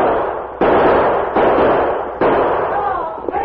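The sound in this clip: Three booming gunshots from guns fired in an outlaw ambush in a gully, about a second apart, each a loud blast that rings out and slowly fades before the next.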